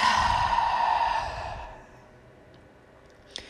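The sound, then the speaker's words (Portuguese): A deep exhale in a breathing exercise, released after holding the shoulders raised: a long, breathy rush of air that fades over about two seconds into quiet, with a tiny click near the end. “leva os seus ombros lá nas orelhas e vai soltar forte, relaxando o teu corpo. Inspira. Segura ombros coladinhos, expira.”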